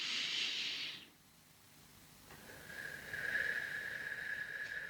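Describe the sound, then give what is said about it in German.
Deep inhalation through the nose during a breathing exercise, done without a straw: a long, soft, airy hiss of drawn-in breath that fades briefly, then resumes as a steady, slightly whistling stream of air, heard alone. “Ich atme nochmals ein. Und ich kann es auch ohne Strohhalm machen. Einatmen.”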